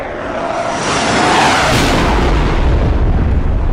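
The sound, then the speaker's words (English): A sonic boom sound effect rolls as a loud, sustained, deep roar that swells slightly partway through and keeps rumbling without a break or a sharp onset. “Boy, that shakes my head. I don't know about you, but that sonic boom like makes my head shake when it goes through.”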